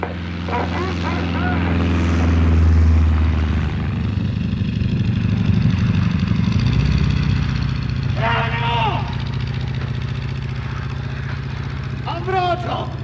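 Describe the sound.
Propeller airplane engine droning steadily with a low, buzzing hum and a few brief bursts of voices heard over it.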